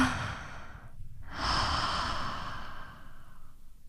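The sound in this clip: A deep, calming breath taken at the first sign of anxiety, part of a yoga approach to easing fear. A soft breathy rush is followed by a brief pause, then a long, steady, airy breath that gradually softens.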